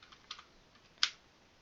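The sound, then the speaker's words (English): A few quiet computer keyboard keystrokes as a password for an SSH key is typed: soft clicks, with a short cluster early and one sharper, louder tap near the end, no voices. “Type in my password for my user, my SSH public or private key, whatever it is called.”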